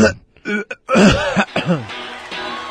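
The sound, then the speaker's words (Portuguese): A short little cough or throat clearing, the classic one heard on a box-set recording: a few brief, rough vocal bursts at moderate loudness. “Dá aquela tossidinha clássica aí, que já é um hit aqui no Ronca Ronca, não?”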